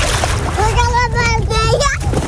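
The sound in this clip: Water splashes as children play in it to cool off, a continuous broad wash of splashing under high-pitched children's chatter and shouts throughout.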